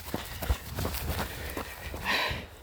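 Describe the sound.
A runner's footsteps on terrain that shifts between tarmac, grassy path, soft earth and stony ground, heard as a steady, regular series of soft impacts over a low background hiss.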